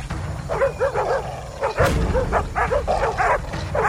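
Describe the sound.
Bloodhounds barking as they are set loose on a punitive raid: many overlapping, mid-pitched baying barks and yelps that follow one another rapidly in a dense, continuous chorus.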